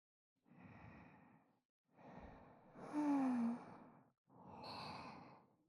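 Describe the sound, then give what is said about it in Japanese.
Soft breath blown gently onto an ear to cool it makes four airy, whooshing puffs separated by short pauses, the third puff louder and carrying a faint whistling tone. “でもまだお耳あてってますね。ふうふうして冷ましてあげないと。”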